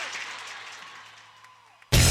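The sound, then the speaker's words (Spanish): Crowd applause for a person, a broad clapping wash that gradually fades for nearly two seconds before loud music abruptly cuts in. “¡Aplauso para Coca!”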